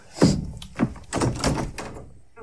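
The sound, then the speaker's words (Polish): A wardrobe door being opened in a room where everything has been dismantled, heard as several dull wooden thuds and knocks in quick succession, the first loudest, with no voices. “To otwórz no tę szafę!”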